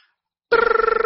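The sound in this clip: A telephone rings for a call, cutting in abruptly after a short silence with a loud, steady buzzing tone that pulses in a fast, even warble and plays alone.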